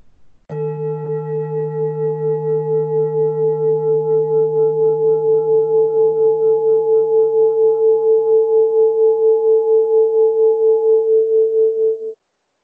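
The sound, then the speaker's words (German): A heart singing bowl rings in one long, steady tone with a slow pulsing waver, sustained alone for about twelve seconds before it cuts off. “Das war der Klang einer Herzschale, die habe ich heute für euch ausgewählt.”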